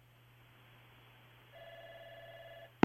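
A telephone line tone after a radio call-in is cut off: a low hum, then a steady, mid-pitched electronic tone holds for just over a second before one abrupt, loud click ends it.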